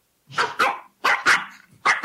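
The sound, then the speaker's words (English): Dog barking in three quick pairs, six sharp, loud barks with short pauses between each pair and no other sounds around them. “what's that dog doing?”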